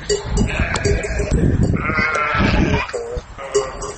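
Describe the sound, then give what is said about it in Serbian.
Sheep bleating from a flock of about 200 kept by a Roma herder in Montenegro, with many overlapping, wavering bleats that run almost continuously at a steady, fairly loud level. “36-godišnja Romkinja Slavka Ađović ima stado od 200 ovaca, ali nema ni metar svoje zemlje.”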